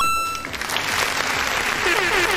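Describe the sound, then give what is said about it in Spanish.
An audience breaks into applause, with many hands clapping at once. The sound is a thick, continuous wash of clapping that swells slightly after the opening moment and then holds steady and loud. “Y acá, aplausos.”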